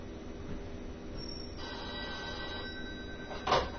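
A telephone rings faintly with a single electronic tonal ring over a steady low hum, followed by a brief noisy click near the end.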